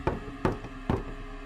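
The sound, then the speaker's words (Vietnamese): Three sharp knocks on a door, evenly spaced, each a short woody rap with a brief ring. They are fairly faint and no voices are heard. “Lúc này lại có tiếng gõ cửa”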